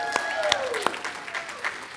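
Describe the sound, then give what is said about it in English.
Applause and cheering from a church audience during a service, with dense, steady clapping continuing throughout. “Now you can cheer.”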